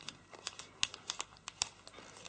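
Paper crinkles and crackles faintly as it is folded and creased to reshape an origami bear's head, a string of irregular crisp ticks and soft rustles with no voices.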